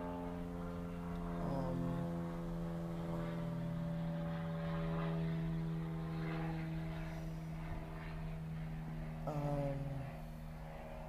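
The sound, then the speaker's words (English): Airplane engine drone from a plane flying overhead: a steady, continuous humming tone that lasts throughout, with a couple of brief shifts in pitch and no talk. “I'm losing my train of thought with these flights, with this plane.”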